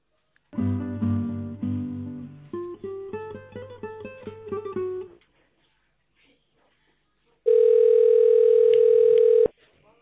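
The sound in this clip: Telephone line tones play while a call is transferred: a short electronic melody of stepped notes, then a pause, then a steady single-pitch tone lasting about two seconds that cuts off abruptly.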